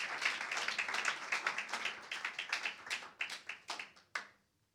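Audience applause from a church audience praising the Lord during a sermon: a dense burst of many hand claps that thins into scattered individual claps and then stops.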